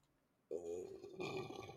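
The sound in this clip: A single burp that starts abruptly after a quiet moment and drags on for over a second as a loud, low, croaky belch.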